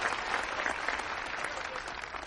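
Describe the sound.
Theater audience applause greets a performer introduced for a spoken word piece: steady, dense clapping from many hands holds at an even level for the whole stretch, with no voices over it.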